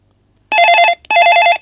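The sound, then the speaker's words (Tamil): A telephone rings with an incoming call: two loud, buzzy bell rings, each about half a second long, separated by a brief gap. The rings follow a quiet start, and no one talks over them. “மீண்டும் ஒரு அழைப்பு வந்திருக்கு.”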